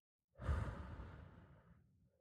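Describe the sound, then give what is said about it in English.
A single deep exhale taken during a guided calming breathing exercise, a soft, breathy rush of air that swells quickly and then tapers away slowly over about two seconds. “So deep breathe in. And breathe out.”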